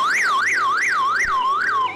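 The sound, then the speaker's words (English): Shrill car alarm in Russia wailing loudly and continuously, its pitch sweeping rapidly up and down in a steady repeating cycle about every third of a second, with no voices. “Shrill car alarms are now popular in Russia.”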